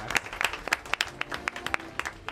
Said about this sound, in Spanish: ¡Un aplauso! ¡Bien!